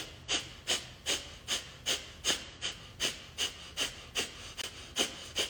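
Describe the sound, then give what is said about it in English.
Breath of fire practice: rapid, forceful breaths pump the belly in an even rhythm of about two per second, with many short puffed exhalations, soft and alone without talk. “you're going to take a deep breath in, start the breath of fire practice.”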